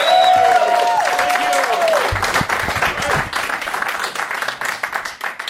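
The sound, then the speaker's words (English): Audience applause for Klaus and Matthias of the Scorpions, a dense, loud, sustained wash of clapping that carries on without a break and eases only slightly toward the end. “Give it up for Klaus and Matthias one more time, everybody.”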